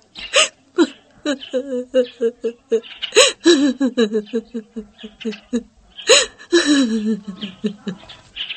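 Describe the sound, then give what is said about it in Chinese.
A woman crying and sobbing: many rapid, hiccuping catches of breath alternate with high, wavering voiced wails in a loud, continuous, uneven rhythm. “你别哭，别哭，快别哭啊！”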